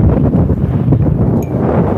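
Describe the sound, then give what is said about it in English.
Wind blowing outdoors, a steady, loud low rush with a slightly buffeting texture across the microphone, continuous throughout and with no voices. “So now we have wind.”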